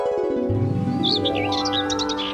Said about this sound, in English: It's bad enough I have to hear the birds chirping to wake me up